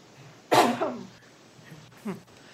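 Throat clearing from a person with a dry throat: a loud, harsh rasping burst, then a shorter, fainter second rasp a moment later, with no speech.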